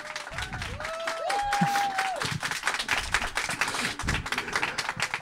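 Audience warmly applauding a guest crime-fiction author at the Quais du polar festival. Dense, crackling clapping runs throughout, with a brief tonal whistle near the start.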